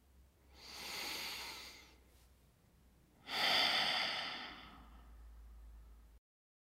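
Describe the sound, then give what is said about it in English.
Two long, deep breaths drawn during a seated meditation exercise, soft and airy with no voices; the second breath is louder and more forceful than the first, then it fades to silence. “Close your eyes gently and take a deep breath to get settled down.”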